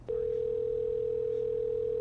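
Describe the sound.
A telephone tone sounds while a call is placed, one steady unbroken mid-pitched tone that begins after a brief moment and holds to the end.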